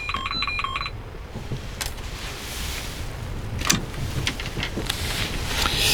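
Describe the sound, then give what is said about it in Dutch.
A telephone rings with an incoming call, a short burst of pulsed electronic tones at the start, followed by steady rushing noise with a few faint clicks. “Iemand belt, om mij te storen.”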